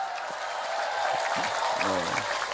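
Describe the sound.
Audience clapping at a community gathering, a dense, steady patter that runs through the whole clip, with brief voice sounds rising over it near the end.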